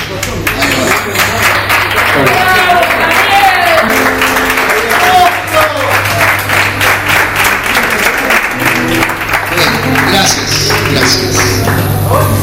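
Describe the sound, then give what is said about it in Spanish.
Live audience of a few hundred applauding at a radio show recorded in a cultural centre, with steady, loud clapping throughout, a low continuous hum and some voices underneath. “En ese momento ustedes me tienen que aplaudir.”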